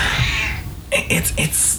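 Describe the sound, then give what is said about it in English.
A cat screams with a few short, strained, high yowling cries, heard after a stretch of talking, with a voice still present underneath. “Cat's screaming again.”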